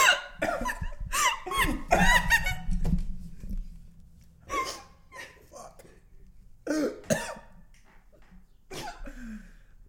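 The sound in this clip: A person coughing and sputtering after inhaling water: many harsh, rapid coughs and throat clearing, loud at first, then a scattered, quieter series of coughs.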